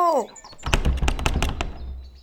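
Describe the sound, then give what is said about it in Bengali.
Someone bangs on a house door that will not open, a quick burst of several hard thumping knocks in close succession. A brief voice is heard just before the knocking. “আরে দেখো না সেই কখন থেকে দরজা ধাক্কাচ্ছি দরজা খোলেই নাই”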